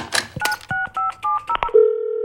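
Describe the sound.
Phone keypad beeps as a number is dialed to call a wastepaper recycling point: about six quick electronic tones mixed with button clicks, then a steady, sustained line tone.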